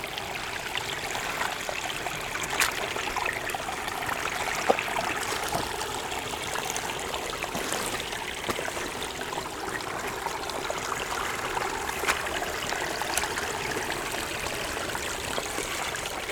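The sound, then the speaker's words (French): A small spring trickles water over spongy ground, a soft, continuous babble and lapping that stays faint and even throughout, with tiny drips and splashes scattered through it. “Cette petite source qui s'écoule ravive-t-elle les envies de baignade?”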